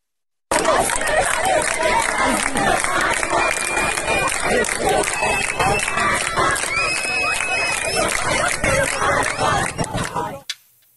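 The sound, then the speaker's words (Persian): Loud, dense roar of a crowd of students at a protest gathering in Kohgiluyeh and Boyer-Ahmad, Iran, with mingled shouting voices that run on steadily throughout and cut off abruptly near the end. “اما در ادامه تجمعات اعتراضی دانش آموزان در شهرهای مختلف کشور که در همین بخش خبری به اون اشاره کردیم، ویدیوی تازه‌ای هم ببینیم از کوکیلوی و بوی رحمت که دقایق پیش به دست ما رسید.”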